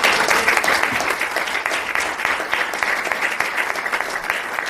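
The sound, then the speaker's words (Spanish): Audience applause in tribute to former teachers: sustained, dense clapping that stays loud and steady for the whole stretch, with no talk over it. “Yo pido un aplauso por ellos.”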